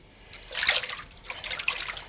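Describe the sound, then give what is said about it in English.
Tap water splashes while soapy hands are rinsed under it. Two bursts of hissing, spattering flow rise and fall. “Good rinse, get all the soap off.”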